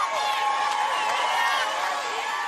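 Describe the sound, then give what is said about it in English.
Crowds cheer and whoop in southern Israel as vehicles carrying released hostages pass by, a continuous, dense wash of many voices at steady loudness. “That was the sound of crowds cheering on vehicles that were transporting released hostages into southern Israel yesterday.”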